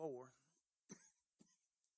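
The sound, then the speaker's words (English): Two short, dry coughs from a person with allergies, sharp and separate, following a brief voiced sound at the start; the second cough is a little fainter than the first. “I apologize for this coughing. Seems like every time I get on the radio, it starts.”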